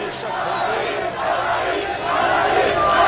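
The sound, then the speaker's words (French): A large crowd on the Grand Place in Brussels cheers to welcome the Red Devils, heroes of the day. Many voices blend into a steady roar that swells a little toward the end. “Cette foule était bien là ce midi sur la Grand Place de Bruxelles pour accueillir ces héros du jour, les Diables Rouges.”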